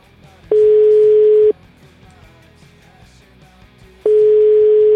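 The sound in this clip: Telephone line tone while placing a call: a steady mid-pitched tone sounds for about a second, stops, then returns near the end, with faint low background sounds in the gap.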